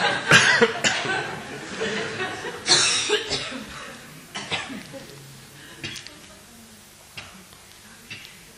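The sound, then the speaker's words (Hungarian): Many people cough together in a group, with sharp irregular bursts and some throat-clearing. The coughs are loudest and densest at first and thin out later, with voices mixed in. “Köhögjön nyugodtan legalább.”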